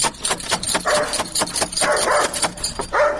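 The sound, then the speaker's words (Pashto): A dog barks at a house door, letting out many loud, sharp barks in a rapid, uneven series. “دا څه بد سپی لري”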